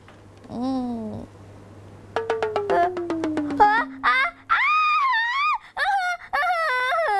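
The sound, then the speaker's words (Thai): A woman screams loudly in fright at an earthworm among flowers she is watering. Several shrill, wavering high cries come in a few bursts, after a short lower vocal sound and a rapid run of twangy plucked tones over a falling glide. “ร้องซะเสียงดังเชียวอ่ะ ไส้เดือนนะคะมันอยู่ตรงดอกไม้นู่นนะคะเฮ้ยขนลุก”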